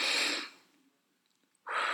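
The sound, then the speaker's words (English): A deep breath in and out during a guided breathing exercise: two loud, airy breath sounds separated by a near-silent pause of over a second. “I took in a real good deep breath.”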